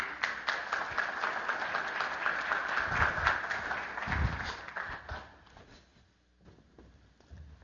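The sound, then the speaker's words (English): Audience applause greets guests being welcomed onto a stage: dense, steady clapping from a crowd that swells and then thins out, dying away almost completely near the end. “Give them a hand.”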